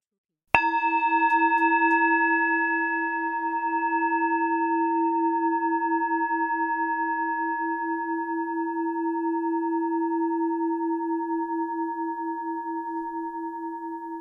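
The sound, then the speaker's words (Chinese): A single musical E note from a keyboard key sounds once and then sustains for about fourteen seconds as a steady, pure, bell-like tone that fades very slowly, with no other sound. “这是一个音波的声音啊， 然后这个音波的音呢 是琴键上的， 这个音名呢是 E 啊”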